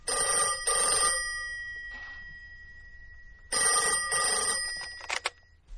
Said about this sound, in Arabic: تليفون عشانك يا بابا.